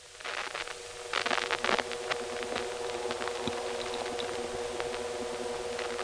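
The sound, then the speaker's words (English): Steady electrical hum from a power supply in a small office: a constant low buzzing drone layered with harmonic tones over faint hiss, with a few scratchy rustles early on. “This office seems to have a distinct power supply noise. We didn't get a lot of it on tape, but you can hear it at the end of the recording.”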